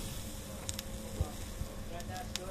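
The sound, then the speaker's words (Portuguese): Fish sizzling on an oiled grill: a steady, low-level hiss broken by a few faint crackles and pops. “O óleo leva óleo que é para não pegar na grelha, está a perceber? Agora fica aqui a grelhar.”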